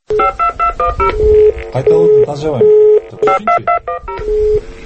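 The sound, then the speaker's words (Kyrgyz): Telephone dialing tones from a call to a city electricity department dispatcher: a rapid run of many short keypad tone bursts, broken by a few longer steady tones, loud and clear. “Талаш шаардык түндүк электро бөлүмүнүн диспетчерине телефон чалганда”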